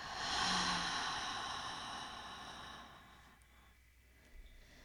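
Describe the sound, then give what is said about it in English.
A long, deep, breathy exhale during a guided breathing exercise. It is soft and airy, strongest at the start, then fades gradually into near silence over a few seconds. “as you deepen your breath into the diaphragm, you feel your heart expand under your hands. Let your heart expand and rise to the sky. Now exhale fully.”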